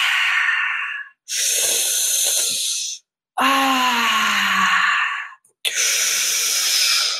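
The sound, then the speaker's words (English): Deep, forceful exhales during guided breath work: four long breaths in a row, separated by brief silences, one carrying a low voiced groan that sinks slightly in pitch. “Exhale. Even more and more. Exhale.”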